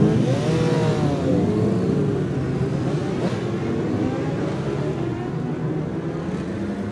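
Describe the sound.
Racing motorcycles, including a Kawasaki ZX6R 636 and a Triumph, pull away at the start of a road race. A loud, continuous engine roar rises in pitch over the first seconds, then settles into a dense, steady drone.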